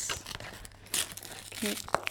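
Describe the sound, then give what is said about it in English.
Crinkly packaging being unwrapped, giving a few short, faint bursts of crackling and tearing with irregular timing and no steady rhythm. “Should I get the sound of the unwrapping? Oh, definitely.”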